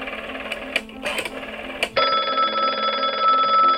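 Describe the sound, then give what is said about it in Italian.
A telephone rings: a few short, clattering bell bursts, then a long unbroken ring that holds steady to the end. “il presidente del Consiglio Alcide De Gasperi fa una telefonata.”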